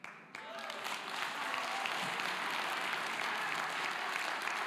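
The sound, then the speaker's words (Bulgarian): Loud, dense applause from an audience clapping on a balcony during a church service begins after a brief pause and then holds steady as sustained, even clapping to the end. “Виж колко неадекватно пляскат на балкона.”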